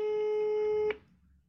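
Telephone line tone on an unanswered call: one steady electronic tone with a buzzy edge holds for just under a second, then cuts off abruptly. Faint low background noise follows.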